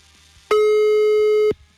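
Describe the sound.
A telephone busy signal sounds as one steady, flat mid-pitched tone lasting about a second, alone against faint low hum, during a call that goes unanswered.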